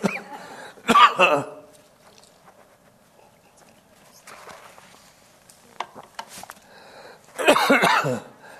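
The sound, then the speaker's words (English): Coughing after something went down the wrong way: a loud burst of coughs near the start, quieter throat sounds in between, and another strong coughing fit toward the end. “Pardon me. I went down the wrong channel.”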